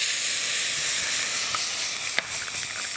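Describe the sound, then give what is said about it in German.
A hot pan sizzles as it is deglazed with roast stock, giving a loud, steady, bright hiss with a few faint crackles and pops. “So, und wir löschen jetzt das Ganze hier noch mit einem Bratenfond ab.”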